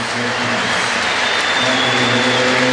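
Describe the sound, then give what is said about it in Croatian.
Applause fills a sports arena for a player leaving the court as a substitute late in the match. It is a steady wash of clapping and crowd noise at even loudness, with a faint low hum underneath. “dakle pljesak za Šotičeka”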